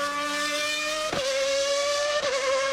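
Formula One race car engine roaring in a loud, sustained high-revving drone that holds a steady pitch throughout, broken by two brief dips.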